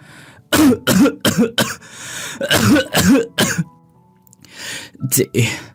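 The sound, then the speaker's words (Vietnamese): Someone in a dilapidated house gives several harsh coughs in quick, loud bursts, followed by hushed, breathy whispering after a short pause. “Có tiếng ho khủ khủ vang lên, rồi tiếng thì thào.”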